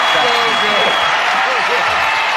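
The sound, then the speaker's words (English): Steady crowd roar and applause greet the Miniature Poodle's Best in Show win at the 148th Westminster Kennel Club Dog Show. The broad, sustained din runs beneath a talking voice. “Crowd goes wild!”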